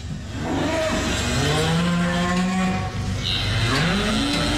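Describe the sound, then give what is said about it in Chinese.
Dairy cow mooing: a long, loud, low bellow, then a second call whose pitch rises near the end. No voices are heard. “刚刚的是母牛吼，乳牛啊”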